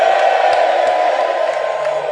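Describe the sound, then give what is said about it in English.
A church audience shouting praise to the Lord: a loud, steady roar of many voices whooping and cheering for about two seconds. “Give the Lord a shout.”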